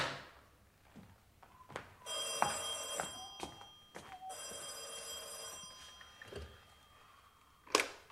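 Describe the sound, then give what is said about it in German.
A telephone rings in two bright, bell-like bursts of about a second and a half each, quiet overall, with scattered soft knocks and clicks before, between and after the rings. “Hallo? Ich habe einen Anruf für Captain O'Brien.”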